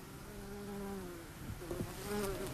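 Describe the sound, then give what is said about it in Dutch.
Wasp buzzing on a white hogweed flower head: a faint, thin, continuous drone that wavers up and down in pitch, with a few brief louder buzzes toward the end. “Weet je al wat dat is? Nee. Wel een wesp. Het is zeker een wesp. Je zit hier op de berenklauw, op die witte schermbloem.”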